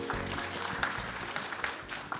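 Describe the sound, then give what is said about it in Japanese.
Applause from an audience welcoming a presenter on stage at a listed company's investor briefing: a short, steady burst of many hands clapping at moderate level, with no clear break across its length. “皆様大きな拍手でお迎えください。”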